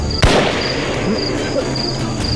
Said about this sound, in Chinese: 我说有枪声吗？